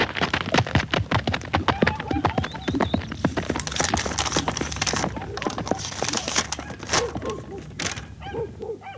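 Galloping horse hooves as a telegraph messenger rides off from a house, a rapid, steady run of loud clip-clop hoofbeats that continues for the whole stretch.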